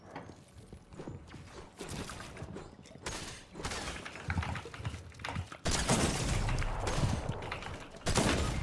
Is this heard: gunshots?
yes

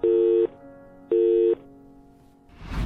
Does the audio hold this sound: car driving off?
no

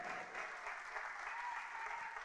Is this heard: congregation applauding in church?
yes

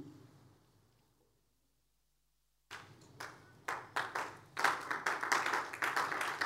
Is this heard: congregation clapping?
yes

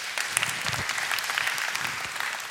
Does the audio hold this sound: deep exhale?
no

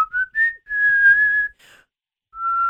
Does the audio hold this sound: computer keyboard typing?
no

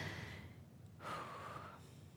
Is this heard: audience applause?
no

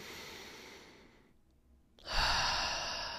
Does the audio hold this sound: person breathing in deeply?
yes

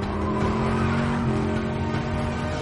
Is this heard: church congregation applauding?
no

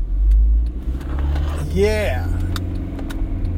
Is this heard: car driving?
yes

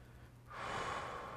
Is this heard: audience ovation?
no

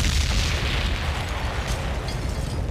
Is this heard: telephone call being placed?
no

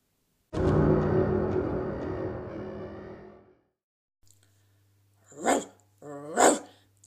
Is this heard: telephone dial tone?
no

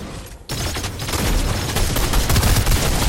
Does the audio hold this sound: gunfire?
yes

